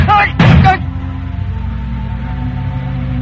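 A single gunshot in an old-time radio drama: one loud, brief blast following a short vocal sound, then a low steady hum that continues to the end.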